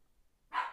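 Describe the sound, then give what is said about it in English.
A single harsh dog bark, almost a scream, bursts out suddenly after near silence: one short, noisy, rasping outburst that fades quickly. “Here goes the dog. He screams, too.”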